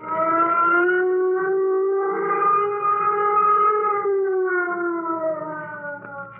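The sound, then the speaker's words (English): A flight warning siren wails loudly and on its own, a sustained tone with a gentle rise and fall in pitch. “Sound flight warning signal. Sound flight warning signal.”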